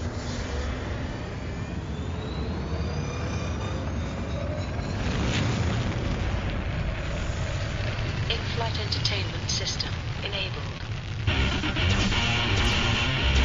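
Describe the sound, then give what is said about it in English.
Spaceship engines roar as the ship blasts off in a space trading game. The rumble is broad and steady, then swells louder near the end. “What now, Captain? Blast off south. Calculating route to destination.”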